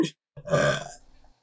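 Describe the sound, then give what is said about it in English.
A single burp let out in surprise, short, low and voiced, loud at first and then trailing off into a rough, fluttering tail, after a brief sound just before it. “I burped out of surprise.”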